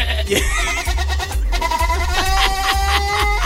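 A young goat, brought as a gift, bleats in loud, wavering, nasal cries, several in succession over a steady low throbbing pulse.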